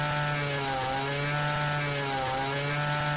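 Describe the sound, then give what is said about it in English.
A chainsaw cuts through a tree trunk indoors in a room, giving a steady, loud, buzzing drone with strong harmonics and only slight dips in pitch, alone without voices. “I have like a tree trunk in here. If you're allowed to use your chainsaw inside the room? Yeah. I don't know. I'll have to ask my boss. I'm getting through this tree trunk here.”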